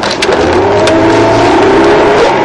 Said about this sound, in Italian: Noi siamo in macchina adesso